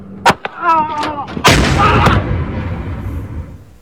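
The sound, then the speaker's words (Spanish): Gunshot from a pistol fired during a dispute that ended in a killing: a sharp crack near the start, then a louder, heavier bang that rings out in a long, rough, decaying tail. “uno saca un arma, dispara”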